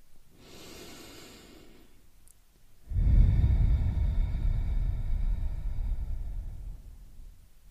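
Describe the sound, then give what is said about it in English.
A deep breath is drawn in softly and airily, then let out in a longer, louder rushing exhale that slowly fades. “Let's begin by taking a deep breath in and a deep breath out.”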